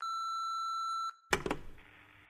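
A voicemail message beep: one long, steady electronic tone lasting about a second, followed by a few short, noisy bursts.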